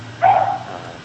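A dog gives a single short, tonal bark or yelp over a steady low hum.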